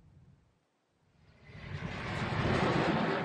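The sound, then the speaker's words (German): A Delta II rocket lifts off carrying the Mars Exploration Rover. From near silence, a broad rumbling roar swells steadily and then holds as a loud, sustained blast. “engine ignition, and liftoff of the Delta II rocket with the Mars Exploration Rover.”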